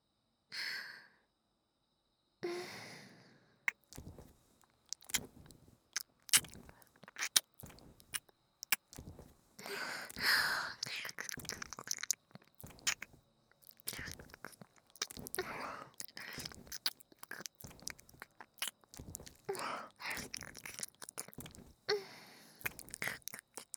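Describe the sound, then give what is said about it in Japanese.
Close ear-eating ASMR mouth sounds, with nibbling and chewing heard as many soft, wet clicks, smacks and crunches in irregular bursts, along with a few quiet breaths, all at low volume. “こっちに向けて。ダーリンの耳いただきます。”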